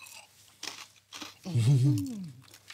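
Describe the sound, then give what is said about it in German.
Crunchy food is bitten and chewed: a few crisp, crackling crunches come first, then a voice speaks over the chewing. “Ist natürlich knusprig, wie man unschwer hören kann.”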